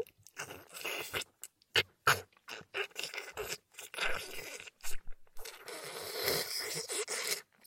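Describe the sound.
Food is eaten with many loud, crisp crunching bites and chewing sounds in irregular bursts separated by short silent pauses. No one talks.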